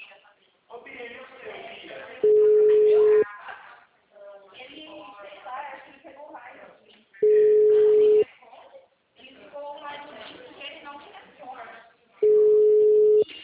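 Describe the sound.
A ringback tone on an outgoing phone call sounds three times, each a steady beep about a second long at even intervals. Voices talk loudly in the gaps between the rings.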